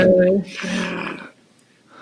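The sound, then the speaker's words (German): A human voice imitates a wolf's growl with a rough, low, snarling rumble lasting about a second before trailing off into near silence. “aus den Untiefen des Gebüschs knurrt euch etwas an. Der Hund. Der Hund. Ihr guckt nochmal genauer. Es ist kein Hund, es ist ein waschechter Wolf.”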